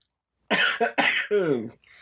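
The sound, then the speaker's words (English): A harsh coughing fit of four rapid coughs, each a loud, rough burst, the last one drawn out and voiced before trailing off. “Dude, I've been holding that. I was holding that back. We gotta get you a mute button so you can cough, you know.”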